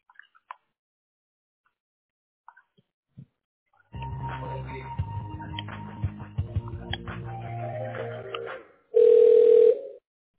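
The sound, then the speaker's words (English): A telephone line connects and rings: a few faint clicks, then several seconds of crackly line noise with shifting tones, ending in one loud, steady ring tone. “Okay, line is ringing.”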